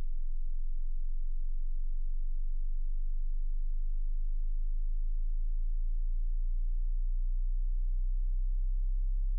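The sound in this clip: A low-frequency sine test tone starting at 20 hertz, a pure, deep hum that sweeps slowly upward and plays alone and unbroken for about nine seconds.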